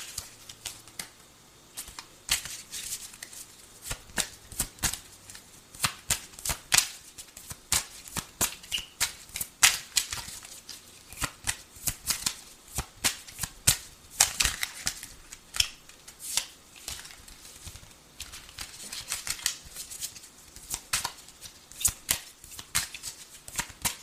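Tarot cards being shuffled during a reading. A long, quiet run of many quick, uneven riffling flicks and soft taps continues throughout with no talk.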